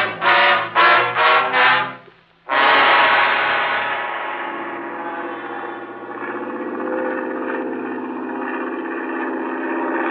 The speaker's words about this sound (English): How about a ride in Billings' private plane? I'd like to take a look at that mountain from the air.